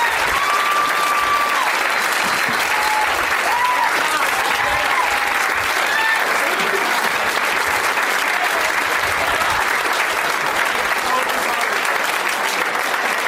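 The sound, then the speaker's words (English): Audience applause at a comedy show: loud, dense clapping from a crowd that holds steady for the whole stretch, with a few brief whistles and cheers rising above it. “Ladies and gentlemen, thank you so much. One more round of applause for all of these guys.”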